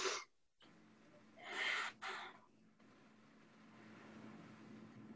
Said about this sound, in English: quite literally taking the deep breath